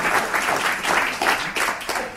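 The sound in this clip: An evening audience applauds to welcome a guest speaker, with dense, continuous clapping that stays fairly even in loudness from start to finish.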